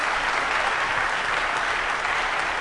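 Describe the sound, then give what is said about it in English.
Audience applause fills a church: dense, continuous clapping from many hands at an even, loud level throughout, with no pauses or separate claps standing out. “I don't know why you're clapping like this.”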